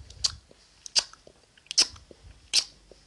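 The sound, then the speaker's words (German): A voice imitates chewing gum with four sharp, wet smacking clicks at a slow, fairly even pace, quiet in between and with no talk. “Michael Wendler hat ständig Kaugummi gekaut.”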